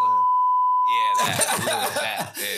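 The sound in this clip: A phone gives a steady, high-pitched electronic beep that holds for over a second, then people talk with some coughing and laughter.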